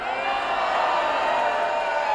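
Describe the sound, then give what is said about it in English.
At a political rally, a crowd reacts at the mention of Governor Rick Scott, producing a sustained, dense roar of many voices at an even, loud level throughout. “At the mention of Governor Rick Scott, who's expected to run for Senate this year, they booed.”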